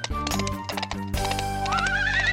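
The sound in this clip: A horse rearing up whinnies in a high, wavering cry that rises through the second half, over a dense bed of sharp clattering clicks and sustained tones.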